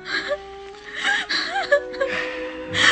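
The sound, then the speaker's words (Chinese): A woman crying: shaky, wavering sobs broken by gasping breaths and whimpers, over a sustained low steady tone. “别哭得那么伤心”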